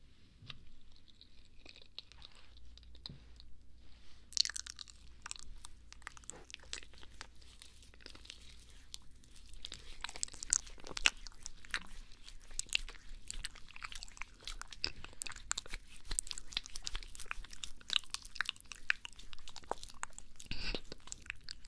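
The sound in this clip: Crunchy chewing and biting of food, with many crisp bites and wet chews following one another in an uneven rhythm. The sounds start faint and grow louder and denser toward the end, with no talking.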